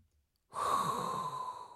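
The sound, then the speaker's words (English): A single long breath drawn in, starting abruptly after silence and holding as a steady, airy rush with a faint tonal edge for over a second, alone with no voices. “So there's only one thing left to do. And that is inhale a hot breath.”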